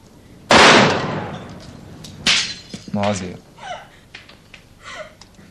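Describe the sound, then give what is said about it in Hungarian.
Two loud gunshots: a sharp blast with a long, decaying tail, then a second, shorter crack a couple of seconds later. Voices speak afterward. “Hogy lősz, te hülye? Olyan sok a felesleges lőszerünk?”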